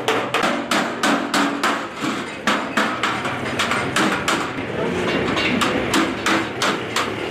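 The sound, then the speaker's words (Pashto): Metal hammering rings out in a blacksmith's shop in a metalworking bazaar where stoves and other metal goods are made: many fast, sharp, clanging blows in rhythmic bursts with brief pauses, heard alone without talk. “د کندهار ښار د ټک ټک بازار د اهنګری په یو دکان کې سهار تر ماښامه چټک پلاس بخاری او نور فلزی توکي جوړوي”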